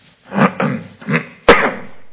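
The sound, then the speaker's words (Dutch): Four short, throaty coughs in a row, each a separate burst, the last one sharper and more sudden, fairly loud with nothing else around them. “pardon, verdenk me niet van de zeeziekte. Ik heb wel meer last van een kuchje”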